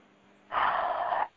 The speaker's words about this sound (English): He just takes deep breath.